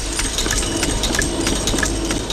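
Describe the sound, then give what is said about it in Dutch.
Coin presses at a mint, each rated at 90 coins per minute, stamping text and images onto coin blanks: fast, regular metallic strikes repeating over a loud, steady machine rumble. “In deze muntpersen, die elk een capaciteit hebben van 90 stuks per minuut, worden dan tekst en beeldenaars op de munt geslagen.”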